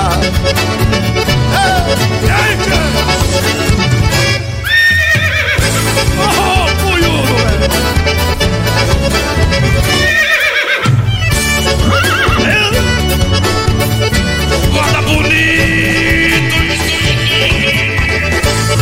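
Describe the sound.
Whinnies from a black horse, ridden at a trot on a moonlit night in the countryside, ring out over a loud, dense musical backing that plays throughout.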